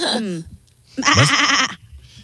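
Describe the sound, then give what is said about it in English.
Sheep bleating as an animal-sound clue in a game show: a short bleat falling in pitch, then after a pause a longer, louder, wavering bleat. “That would be a... Sheep? Yes! Or a lamb.”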